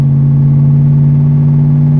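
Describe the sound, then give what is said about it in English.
A car engine held at light throttle around 2,500 rpm with the windows up gives a loud, steady low drone that stays even and constant in pitch throughout. “Just a little bit of throttle. I'm not putting my foot to the ground. That's 2,500.”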